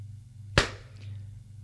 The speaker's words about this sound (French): La mère la gifle.